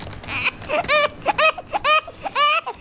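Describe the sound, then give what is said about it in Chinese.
Baby crying hard, several wailing bursts with wavering pitch that rise and fall in quick succession, fairly loud and up close. “孩子哭得这么厉害”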